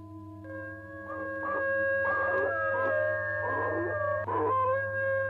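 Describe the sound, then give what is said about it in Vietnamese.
Long drawn-out howl from a creature in a garden under bright moonlight, a sustained tonal wail holding steady with several rough, breathy pulses along its length over a low hum. “nó hú lên một tiếng”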